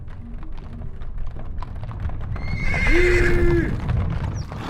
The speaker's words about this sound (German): Eine geteilte Herde brandgezeichnetes Vieh zog an den Fenstern vorbei. Brüllend, trottend auf flatschigen Hufen,